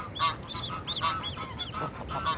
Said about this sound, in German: Der Ganter wird unruhig.